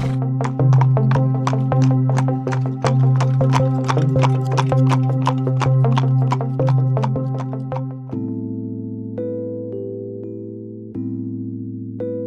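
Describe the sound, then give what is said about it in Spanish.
Horse hooves clip-clop in a steady, even rhythm as the horse moves and pulls a rolling log. The beats stop partway through, leaving a sustained tone. “El caballo se movió y el tronco comenzó a rodar tras él.”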